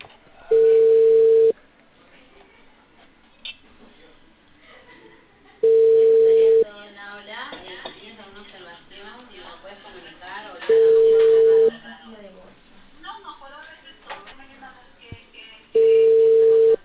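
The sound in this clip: A telephone ringback tone plays before a call is answered: four steady, one-second tones at regular five-second intervals, with faint voices talking in the gaps between them.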